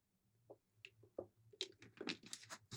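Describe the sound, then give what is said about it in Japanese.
A few faint sips and swallows of water as someone drinks, soft wet gulping and small mouth clicks growing denser toward the end, with no talk. “ちょっと声がガラガラしてきちゃったので、ちょっとすいません、水飲みます。”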